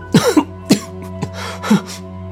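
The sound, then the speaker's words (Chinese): A man coughs, choked by a heavy smell of blood, in a few harsh, ragged bursts, with short pauses and a fainter catch between them. “浓重的血腥味让他止不住开始咳嗽起来。”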